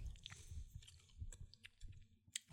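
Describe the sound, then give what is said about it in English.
Faint chewing and crunching of an Utz snack during a taste test, with soft irregular crunches and wet mouth sounds and no talk. “It's not going to taste Japanese. It's by Utz. All right, let's do this.”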